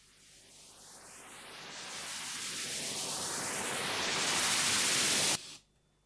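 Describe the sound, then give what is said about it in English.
A synthesized white noise sweep transition effect from a synthesizer's noise oscillator, a hissing wash that swells steadily louder as filtered sweeps rise through it, then cuts off abruptly near the end, leaving only faint low hiss. “The second transitional technique out today is the noise sweep transition, and it's heard all over the place in modern music. And it can sound like this.”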